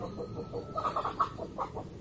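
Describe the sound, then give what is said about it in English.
Chickens clucking as a dog herds them back into their pen, a faint, uneven run of many short clucks with no voices. “that's my dog looking after the chickens, putting them back in the pen.”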